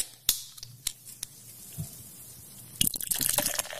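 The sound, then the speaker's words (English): Soda poured over ice: a few sharp clicks and drips come first, then a dense crackling fizz of bubbles with scattered snaps fills the end, fairly faint overall. “Apparently, to everybody else, sounds like Coca-Cola or like soda. It does sound more like soda. It does more sound like soda. It sounds like it's being poured over ice.”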